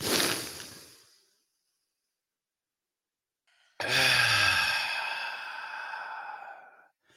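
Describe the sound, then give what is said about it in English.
A person draws a deep breath, holds it through a few seconds of silence, then releases it in a long, loud, voiced sighing exhale that slowly trails off. “We're going to take a deep breath in, hold it, and then let it out.”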